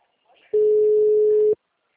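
A telephone ringback tone sounds on a call placed from a mobile phone: one steady, mid-pitched electronic tone lasting about a second, loud and alone, with near silence before and after.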